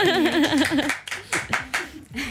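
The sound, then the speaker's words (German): Scattered applause from a small group follows a wavering voice at the start, with separate, uneven hand claps arriving in short bursts. “Applaus auf jeden Fall an euch alle.”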